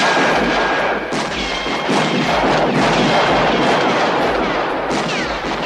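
Rapid gunshots fired at flying clay targets during shooting practice. Many loud, sharp bangs follow one another in quick succession against a constant background roar.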